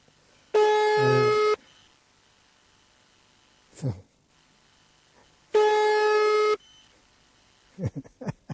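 Ringback tone of a telephone ringing after a number is dialed: two steady, buzzy tones of about one second each, evenly spaced several seconds apart, with brief vocal sounds in the gap and near the end.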